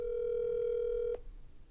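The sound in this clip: A phone call ringing out on the line: one steady, even electronic tone holds for about a second, then cuts off abruptly, leaving faint background hiss and no talk.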